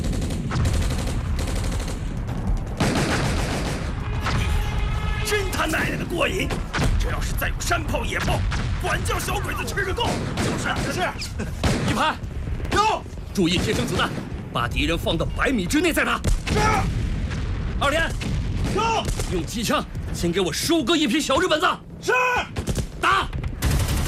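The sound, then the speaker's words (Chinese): Mortar and gunfire in a battle scene against Japanese troops near Shanghai: dense, continuous blasts and shots, loud throughout, mixed with shouting voices. “迫击炮，准备，打！”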